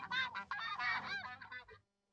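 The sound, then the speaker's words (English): Geese kept by a young shepherdess honk in a rapid run of loud, harsh, nasal calls that overlap for almost two seconds, then stop abruptly into silence. “While the young shepherdess's geese seem peaceful today, history remembers their legendary vigilance.”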